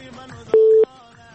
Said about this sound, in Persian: تماس بعدی ببینیم کی است.